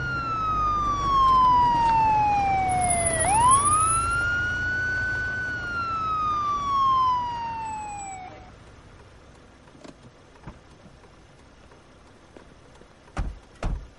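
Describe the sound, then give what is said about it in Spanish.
A Guardia Civil police car siren at a roadside stop wails loudly, sliding down, then sweeping back up and slowly falling before it cuts off about halfway. Quieter road noise follows, with a couple of brief sharp knocks near the end. “Un coche de la Guardia Civil le indica que pare.”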